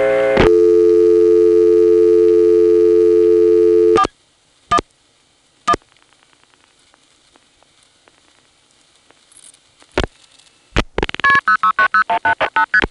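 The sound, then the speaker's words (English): A landline telephone plays a steady dial tone that cuts off, followed by a few short dialing tones spaced apart while calling directory assistance, then a rapid run of pulsing ringing tones at the end. “Let's try dialing 411 and see what happens.”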